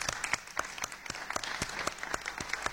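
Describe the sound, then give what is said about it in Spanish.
A conference audience applauds a panel of speakers with a soft, steady patter of many individual claps, fairly faint and even throughout. “Yo creo que toda la sala les debe un aplauso por el trabajo que”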